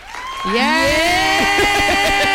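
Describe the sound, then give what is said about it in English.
An applause-and-cheering sound effect: dense crowd clapping swells in after about half a second and holds steady, while a loud whooping voice rises and wavers above it. “I think applause was all we needed. We're going to use that too much.”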